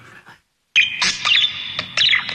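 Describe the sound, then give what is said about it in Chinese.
Harsh, loud squawking calls from a white parrot brought into an imperial palace. Several sharp, ringing bursts follow one another after a brief quiet start. “哎呀，小鹦鹉啊，快跟着朕说呀”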